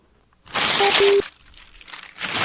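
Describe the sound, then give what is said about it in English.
Paper mail being ripped up: a loud, sharp tearing burst lasting under a second, followed by softer crinkling rustles and another tearing swell near the end. “I'm ripping up your mail still.”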